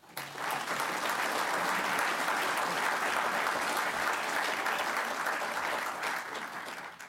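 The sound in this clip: Sustained audience applause welcoming an author and historian to a lecture: a dense, even wash of clapping that rises quickly and holds steady for about seven seconds before easing slightly at the end.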